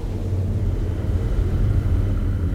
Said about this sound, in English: I think the distress beacon is working. Someone appears to be landing.